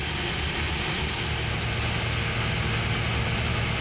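A farm vehicle's engine drones steadily as it hauls a trailer of freshly harvested wheat toward the grain mill, a constant low rumble with no breaks and no talk.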